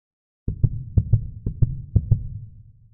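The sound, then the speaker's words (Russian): A heartbeat thumps alone out of silence in four clear lub-dub pairs at a steady pace. Each beat is deep and low, and a faint hum trails off after the last one. “Сердцебиение резонировало в его ушах. Его собственное сердце билось в том же ритме.”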